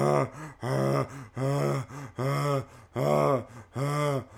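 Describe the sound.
A voice imitates the panicked, gasping breath of a small creature trapped inside a microwave. A run of many loud, voiced gasps comes in a steady in-and-out rhythm, each a strained, throaty heave.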